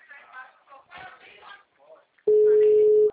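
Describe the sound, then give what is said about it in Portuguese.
A telephone tone sounds on a call to a number that is not answering. Brief talking comes first, then a single steady low beep holds for under a second. “Tô ligando, sim. Pode conferir. The number is not answering.”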